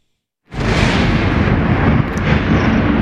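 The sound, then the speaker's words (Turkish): Explosion-like roar in Kyiv during an air raid. A brief silence gives way to an abrupt, loud onset, followed by a sustained heavy rumbling noise that holds steady to the end. “Ukrayna'nın başkenti Kiev, hava saldırısı sirenleri ve patlama sesleriyle sarsıldı.”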